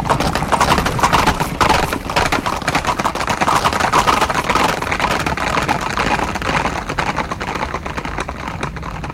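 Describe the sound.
Horses gallop in a dense, loud, continuous clatter of rapid hoofbeats that keeps up without a break and with no voices over it.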